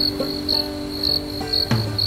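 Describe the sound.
Crickets chirp in a steady high-pitched trill, with brighter pulses swelling every half second or so and a brief dull knock near the end. No voices are heard.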